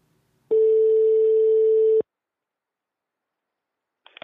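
A telephone ringback tone plays while a call is placed, a single steady tone lasting about a second and a half, then silence before a faint sound begins at the very end.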